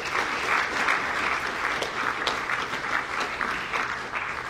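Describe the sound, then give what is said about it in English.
An audience gives a big round of applause as two speakers come onto the stage, with dense, even clapping that holds steady for the whole stretch. “Let's give them a big hand as they come.”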